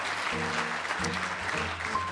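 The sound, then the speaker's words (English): Applause from a quiz-show audience, dense and steady for the whole two seconds, with vocal sounds from the crowd mixed into the clapping. “We applaud every conference.”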